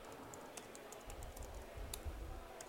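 Keyboard typing as a commit message is entered on a computer: a steady run of many light, irregular key clicks, faint over a low background hum.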